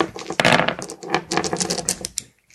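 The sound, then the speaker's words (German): Dice rattling and tumbling during a vampire tabletop role-playing game session, a dense run of many quick clicks and taps that lasts a couple of seconds and then dies away. “Wir können nochmal dasselbe würfeln.”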